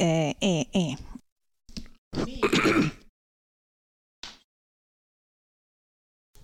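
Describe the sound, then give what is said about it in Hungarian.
Coughing and throat clearing breaking up a short stretch of speech, with rough bursts separated by silence and one more brief harsh burst later on. “Most mindenki hallotta a köhögést.”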